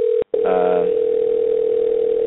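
A telephone dial tone hums as a call is dialed up. The single steady note is loud and continuous, cut off once very briefly near the start, and a short warbling tone rides over it just afterward.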